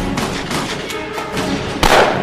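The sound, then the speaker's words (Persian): A gunshot rings out as a man is hit in the head during a fight near a building, where a gunman carries two guns. One sudden loud blast bursts out near the end over a dense, rumbling background. “نادر تیر میخوره تو سرش.”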